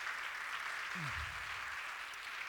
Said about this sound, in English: Give Kenny a big cheer. Thanks, Kenny.